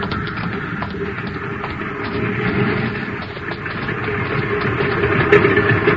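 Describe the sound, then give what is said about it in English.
An airplane engine droning as the plane comes in for a landing, a steady rumbling, vibrating tone that holds loud throughout and grows slightly louder toward the end. “Yeah, she's back. Coming in for a landing now.”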